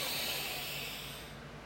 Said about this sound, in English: Let's take one final deep breath here.